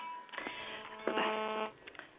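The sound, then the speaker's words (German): Electronic telephone ring of an incoming call: a short, buzzy, harmonic-rich tonal burst that shifts partway through, then fades into a few faint blips, with no talk. “Ja, ich hatte gerade einen Anruf bekommen von einer Leitung.”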